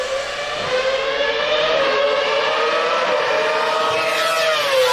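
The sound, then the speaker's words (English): A Formula One race car engine gives a loud, sustained, high-pitched harmonic whine whose pitch wavers and dips slightly. It is heard alone, with no talk. “Get the final downshift for the start of the show.”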